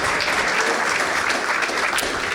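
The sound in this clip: Audience applause welcomes a taxidermist guest onto a comedy talk show: loud, dense, steady clapping that fills the whole moment without a break.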